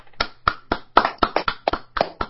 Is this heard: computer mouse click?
no